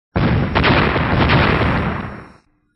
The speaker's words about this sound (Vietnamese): Sáu khối quang cầu cùng lúc nổ tung, hóa thành sáu cơn sóng vàng rực rỡ cuốn thân hình của lão ta vào đó.